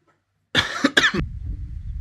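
A man coughs twice in quick, harsh bursts, clearing something caught in his throat, followed by faint low rustling.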